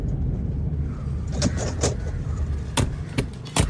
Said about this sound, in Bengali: ফেলুদার নির্দেশে আমাদের গাড়ি গেটের বাইরেই থামল।